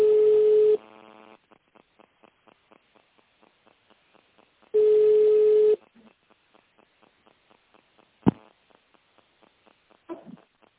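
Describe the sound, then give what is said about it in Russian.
A telephone line tone plays while a call is being transferred: a long steady tone, then a run of short regular beeps. The long tone returns and is again followed by the beeps, with a sharp click near the end. “На Альбатрос сейчас соединю, оставайтесь на линии.”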